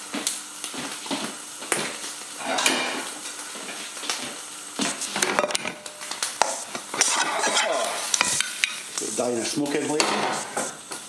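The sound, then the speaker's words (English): Kitchen clatter as a bacon and chilli omelette is slid from a frying pan onto a plate, with many clinks, scrapes and knocks of pan and crockery running steadily throughout at a moderate level. “I'm going to slide it straight onto a plate and it'll be ready for eating.”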